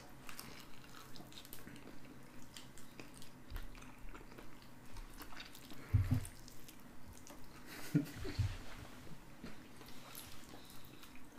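Chewing and biting on hot chicken wings, a few soft, wet bursts of crunching and squishing at low level, with no talk.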